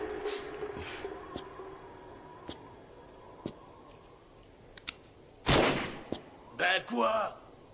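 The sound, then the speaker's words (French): Gunfire from enemies shooting in a video game: faint, sharp single shots spaced out at first, then a few louder, longer bursts near the end. “Oh, il y a des types qui vont essayer de me tirer dessus.”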